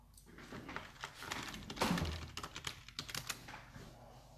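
Typing on a computer keyboard while looking something up online: a long, steady run of many quick, light clicking keystrokes, heard alone without talk.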